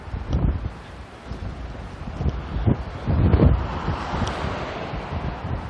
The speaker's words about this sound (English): it's a cold wind. It's coming right out of the north.